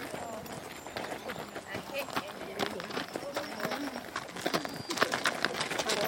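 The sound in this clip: Hooves of horses walking in line at a calm, slow walk: many steady, light clip-clops in an even rhythm, growing slightly louder toward the end, with soft voices in the background.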